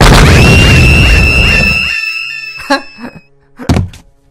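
A mimic box being smashed in a video game: about two seconds of crunchy, crackling noise threaded with bright falling chime-like tones, then quieter, followed by a few separate dull thuds.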